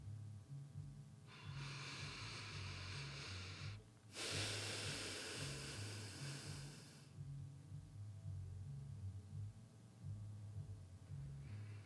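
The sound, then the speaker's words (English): One slow, deep breath taken during a guided relaxation exercise: a long, hissing inhale of about three seconds, a short pause, then an equally long, airy exhale. It is soft, over a faint low hum, with no talking. “Maybe you need a couple deep breaths. I'll do a few here with you.”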